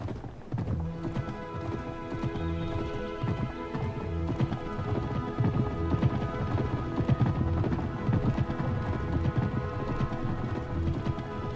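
Horses ridden away, their hooves striking in a steady, rhythmic clip-clop that continues throughout at a moderate, even level.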